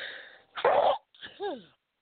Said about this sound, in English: I don't usually start by sneezing.